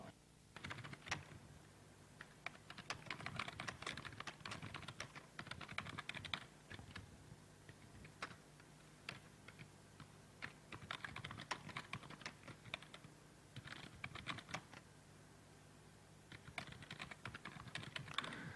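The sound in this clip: Faint, continuous typing on a computer keyboard as code is written, with quick clicks in dense bursts separated by short pauses and no voices.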